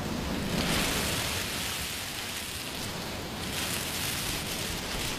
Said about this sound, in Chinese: 把海螺放在耳边，就能听到大海的声音。你听，